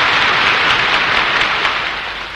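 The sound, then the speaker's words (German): Crowd applause at a political speech in the Sportpalast for the Winterhilfswerk: a dense, hissing wash of many hands clapping together, loud and steady before easing slightly at the end. “Applaus”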